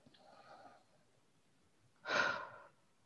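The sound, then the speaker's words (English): A single deep inhale during a guided breathing exercise: one loud, breathy intake of air after a faint, quiet stretch, then silence. “All right, here we go. Inhale in.”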